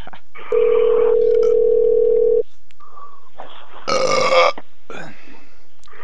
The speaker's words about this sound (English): All right, shut up and call more 7-Elevens.